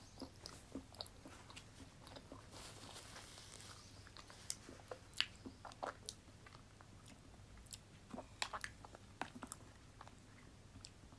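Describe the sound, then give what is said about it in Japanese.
Cake being eaten: soft chewing and biting with many small, crisp clicks and crunches at an uneven pace, faint throughout and without talk. “ケーキも食べよう。”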